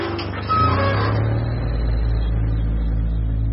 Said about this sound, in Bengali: Horn দিতে দারোয়ান এসে গেটটা খুলে দিল। গাড়িটা ঢুকে গেল ভেতরে।